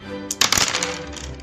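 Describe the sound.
Three dice rolled during a tabletop role-playing game, clattering in a quick burst of sharp clicks and knocks that trails off into a few fainter taps.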